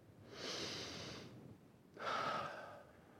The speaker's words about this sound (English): Let's all take a deep breath for a minute. Ready?